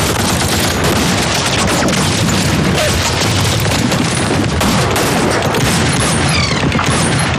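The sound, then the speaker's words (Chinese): Heavy gunfire in a firefight as troops open fire on enemy soldiers: a loud, dense fusillade of overlapping shots and bursts that runs without a break through the whole clip. “停止射击。停射子弹。”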